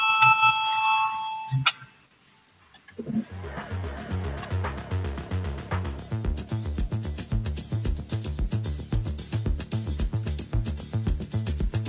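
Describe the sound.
An electric bell rings in a parliament chamber to call members to a vote. It gives a rapid, continuous clattering of metallic strikes that lasts about nine seconds after a short quiet gap. Clear tonal sounds come before the gap.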